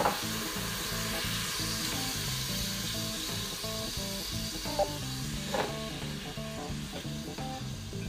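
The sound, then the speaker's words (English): A pan sizzles loudly and steadily as it is deglazed, with rice cooking in it. The hiss runs unbroken for the whole stretch at an even level. “Just to deglaze the bottom. Help the rice cook.”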